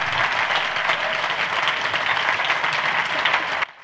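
A church audience bursts into dense, steady applause with many overlapping claps, holding at a constant level before cutting off abruptly.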